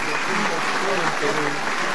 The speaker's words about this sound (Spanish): Pese a ello, los aplausos continúan para la presidenta Keiko Fujimori